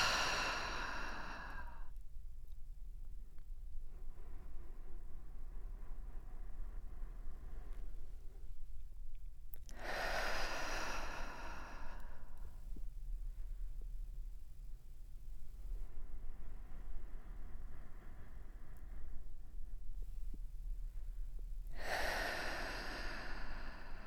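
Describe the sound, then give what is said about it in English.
Slow, deliberate breathing, in through the nose and out through the mouth: a few long, airy, sighing breaths with long quiet gaps between them over faint steady background noise. “take a few more breaths in this way. Inhale through your nose. And exhale through the mouth.”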